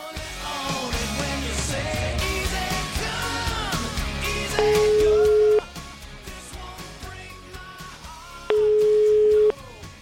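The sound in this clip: Ringback tones while a telephone call is being placed: two long, steady, mid-pitched beeps of about one second each, separated by a few seconds and sounding over busy mixed sounds with voices.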